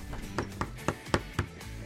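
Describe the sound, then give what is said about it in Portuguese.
Bare knuckles rap on a house door in a steady series of evenly spaced, sharp knocks, some louder than others. “Quase quebrei agora a mão aqui batendo na porta da casa.”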